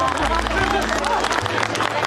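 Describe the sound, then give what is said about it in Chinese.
Crowd applause for a calm, quick-witted and brave woman, a dense patter of clapping mixed with people talking and a low steady hum beneath. “让我们给这位沉着机灵有胆量的女同志鼓鼓掌。”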